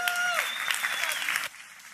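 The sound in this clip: Audience applause greets a speaker being called up at a church student ministries gathering: a dense burst of clapping lasts about a second and a half, then cuts off sharply to near quiet.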